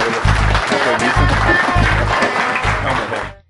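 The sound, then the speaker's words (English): Applause from a conference audience at SQL Saturday Pensacola 2019, a dense, continuous wash of clapping at full strength that tapers off quickly at the end. “Big round of applause for”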